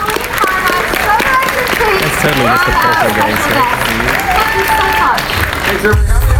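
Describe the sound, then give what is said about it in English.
An audience at a Halloween Horror Nights 29 opening-night presentation applauds and cheers in a dense, continuous wash of clapping, with voices talking over it. “Another huge round of applause for our”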